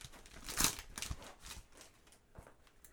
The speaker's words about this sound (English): Back on it, D. Open the nasty pack.